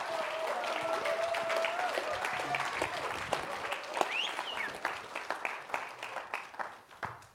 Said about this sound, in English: Will you welcome them? Put your hands together and welcome them.